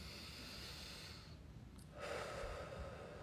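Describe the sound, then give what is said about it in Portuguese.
A deep breath drawn in and let out during a guided spiritual release exercise: soft, breathy airflow, fairly faint, with no talking. “Inspira e solta.”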